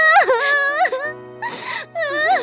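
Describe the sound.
A woman cries in wavering, high-pitched sobbing wails, broken by a breathy, ragged gasp before one more tremulous cry. The sound is loud and emotional.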